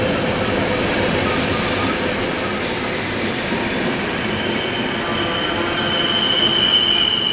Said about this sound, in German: Heute geht es mit dem Nightjet, das ist der Nachtreisezug der ÖBB, das ist die österreichische Bahn, von Koblenz nach München.